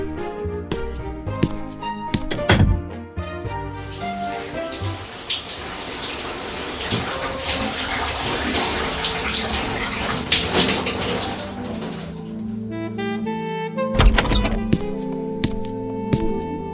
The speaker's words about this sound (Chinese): 行了，快去洗澡吧。